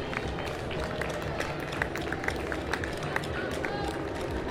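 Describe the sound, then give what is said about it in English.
Footsteps of a continuous stream of runners passing by in a race, many quick light strides pattering steadily, faint, over a low murmur. “Yeah, it's pretty much a continuous stream now of runners.”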